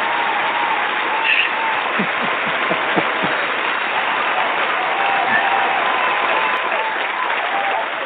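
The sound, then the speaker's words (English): Played-in audience applause effect: a loud, steady roar of many hands clapping that holds at an even level from start to finish. “Your Excellency, I'd like to capture that audience reaction for you on the return of Francis Watch. It sounds a little bit something like this.”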